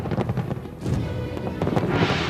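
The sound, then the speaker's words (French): Fireworks marking the handover of Hong Kong to China: many sharp crackling pops and dull booms burst irregularly over a continuous rumbling wash of noise. “Que penser de ce feu d'artifice qui incarne la rétrocession de Hong Kong à la Chine”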